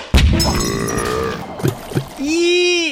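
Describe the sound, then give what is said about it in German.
A confetti cannon fired, shooting dust and slime instead of confetti: a sudden loud burst, then gurgling, splashy splatters mixed with whistling, wavering tones. “Dann starte ich jetzt die Konfettikanone.”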